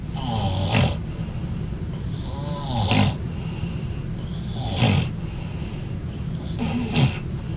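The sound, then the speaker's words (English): Loud snoring from a patient with obstructive sleep apnea, with four strong breathy bursts spaced about two seconds apart over a steady low rumble. “there is a sudden gasp of air, which are recovery breaths, and then the patient goes back and sleeps further and develops this recurrent cyclical obstructive sleep apnea.”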